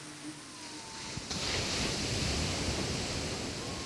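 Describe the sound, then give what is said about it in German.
Ocean waves moving across the open sea make a steady, broad rushing wash that swells louder after the first second and then continues evenly with no voices. “Wellen kommen und gehen. Über die endlos bewegte Fläche des Meeres.”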